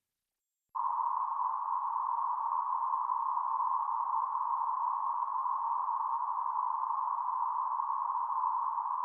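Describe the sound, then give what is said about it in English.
A one-third-octave band of noise centered on 1000 hertz starts abruptly after brief silence and holds as a steady, narrow hiss, even in loudness throughout. “centered on 1,000 hertz. This band extends from about 890 hertz to about 1,100. Here is a sample of a noise band 1/3 octave wide.”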